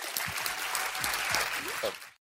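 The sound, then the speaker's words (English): An audience applauds as two guests from the company Terminus are welcomed on stage. Dense, steady clapping carries a few shouts and cheers, then ends abruptly. “Do me a favor, please put your hands together for Todd and Lucas from Terminus.”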